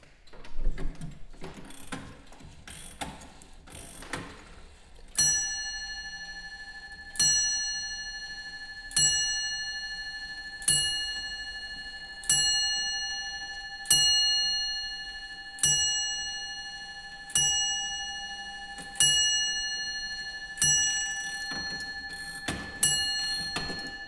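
Winding a stopped longcase clock from around 1700: quick ratcheting clicks from the mechanism, then a long run of evenly spaced bell strikes. Each bright tone rings out and fades before the next stroke.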